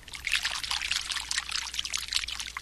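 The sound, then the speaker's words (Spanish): Water pouring into a large tub, a steady, fairly soft splashing stream with rapid bubbling trickles and no pause. “Lo primero que hicieron los servidores fue prepararle una gran tina llena de agua.”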